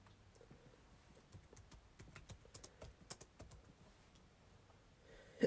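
Faint keystrokes of typing on a computer keyboard form an irregular run of many light clicks, clustered in quick bursts with short pauses between them.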